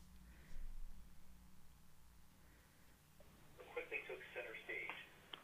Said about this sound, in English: Maybe we got butt dialed. Oh, man, I think we got butt dialed.